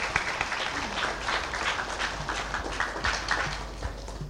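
Audience applause for a prize winner at an awards presentation: dense, continuous clapping from many hands, holding at a steady moderate level throughout without a clear peak.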